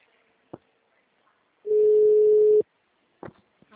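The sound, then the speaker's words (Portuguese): A telephone busy signal sounds as one steady beep lasting about a second. A few faint clicks come before and after it on an otherwise quiet line. “Não estou tocando, não estou tocando. Agora estou. O número está ocupado.”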